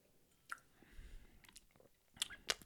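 Quiet chewing and biting while tasting food: a few soft, crunchy clicks and moist mouth sounds, sparse and irregular, faint and with no talk.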